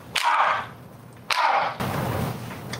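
Two sharp gunshots from a fatal shooting of a 25-year-old cyclist ring out about a second apart, each with a short bright tail, followed by steady rushing noise.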